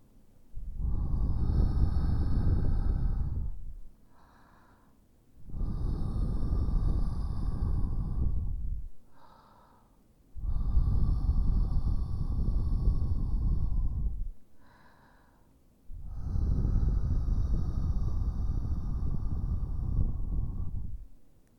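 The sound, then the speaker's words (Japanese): Gentle blowing into the ear during ASMR ear cleaning: four long, soft, breathy rushes of air, each lasting a few seconds, separated by short pauses, with no talking. “フーフーしますね。失礼します。”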